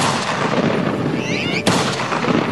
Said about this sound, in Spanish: en un acto insólito de brutalidad a sangre fría, los dos hombres son ejecutados rápidamente, con un tiro en la espalda